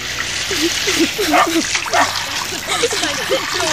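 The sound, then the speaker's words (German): Water sprays from a garden hose in a hissing, splattering rush, heard under excited voices and what sounds like a barking dog. “vielleicht kann ich sie mit dem Wasserschlauch vertreiben. Verdammt, ist der Hahn fest. Na, endlich.”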